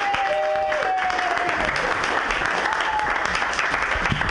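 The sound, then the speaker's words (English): Audience applause welcoming a comedian on stage, steady and sustained dense clapping at an even level throughout. “Everybody put your hands together. It's Adam Strawbridge.”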